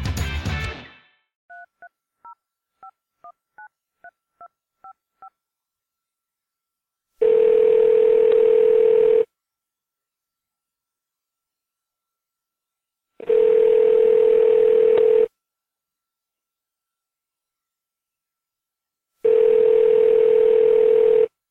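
Phone call to a sports bar-themed drunk-dial voicemail line: a short burst of noise, then a quick run of touch-tone dialing beeps, followed by three long, steady ringback tones of about two seconds each, separated by silence.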